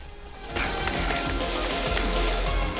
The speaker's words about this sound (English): It's raining heavily.